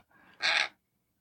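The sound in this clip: A sun conure parrot gives one short, harsh, screechy call, preceded by a fainter rasping sound.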